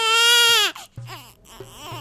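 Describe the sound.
A newborn baby cries: one long, loud, strained wail that breaks off, followed by shorter, choppier sobbing cries.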